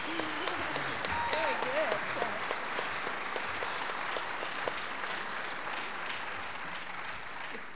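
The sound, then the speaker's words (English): Audience clapping along to a gospel song at a live show, a dense, steady wash of applause that holds at an even loudness throughout, with a voice heard briefly near the start. “We like that when you clap along and sing along.”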